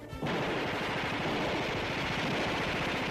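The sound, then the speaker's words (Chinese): Heavy gunfire from many guns firing at once makes a dense, continuous barrage of rapid, overlapping shots. It is loud and unbroken throughout, with no voices. “外面无数支枪一起开火，”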